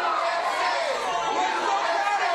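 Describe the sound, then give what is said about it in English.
A dense crowd of fans chatters and calls out at the Houston airport as they welcome home a gymnast. Many voices blend into a continuous, busy murmur. “Simone Biles was treated to a hero's welcome as she landed at the airport in Houston.”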